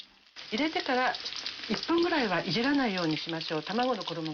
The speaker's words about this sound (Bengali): মুরগির মাংস প্রায় 3-4 মিনিট ধরে ফ্রাই করে নিন।